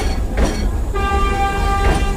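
A city tram rolls along its rails, with a steady low rumble and a sustained high, tonal whine that sets in about halfway through and holds to the end.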